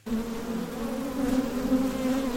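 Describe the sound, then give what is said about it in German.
Thousands of honeybees buzz around wooden hives at an apiary near Düsseldorf, a dense, steady drone with a low hum that holds throughout without pause. “Um die Holzkästen schwirren tausende Bienen.”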